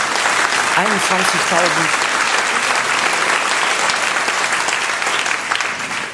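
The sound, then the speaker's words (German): Audience applause at a cabaret show, a loud, dense, continuous wash of clapping. A voice sounds briefly over it early on, and the applause eases slightly toward the end. “Applaus”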